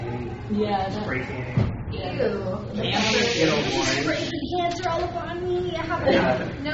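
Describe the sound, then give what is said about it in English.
A voice imitates the hissing spray of a spray tan with breathy, sustained hissing amid lively conversation, the hiss rising and fading between spoken phrases. “Yeah, that's spray tanning.”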